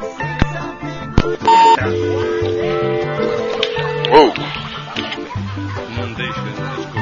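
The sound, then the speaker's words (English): Telephone dialing as a call is placed to a casino in Nevada: a short run of touch-tone beeps at steady pitch over a busy, fairly loud background. “Okay, we're going to call the casino. Just a moment, folks. Lucky J's Casino in Nevada.”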